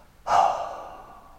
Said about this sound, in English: Again, inhale intense. Exhale, relax.